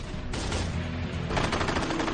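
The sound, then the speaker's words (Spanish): Heavy Japanese anti-aircraft gunfire aimed at US Navy SBD dive bombers in a World War II carrier battle: a dense, continuous crackle of rapid shots that grows sharper partway through, loud and without voices. “los SBD reciben un furioso fuego japonés, pero siguen avanzando.”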